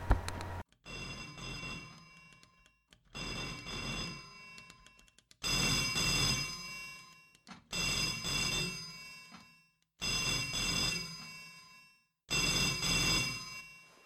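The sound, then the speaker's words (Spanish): A telephone rings in a scene from a short film: six long, even rings of about two seconds each, separated by short silences, with no talk. “Solo quería contestar el teléfono.”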